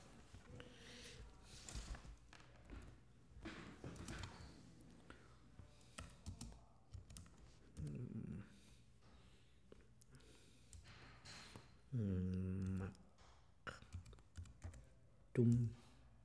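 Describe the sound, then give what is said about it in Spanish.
Someone types on a computer keyboard in a run of quiet, irregular key clicks, with a few brief vocal sounds between the bursts of typing. “Si quiere, yo lo escribo. Lo tecleo.”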